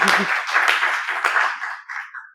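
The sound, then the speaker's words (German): Audience applause: dense, steady clapping that starts loud with a brief low vocal sound at the very start, then gradually thins and fades toward the end. “Das ist ein Applaus wert.”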